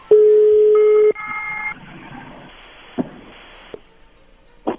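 A telephone is dialed to place a call: a loud steady tone, then a quick run of keypad tones, followed by a few sharp clicks over faint background noise.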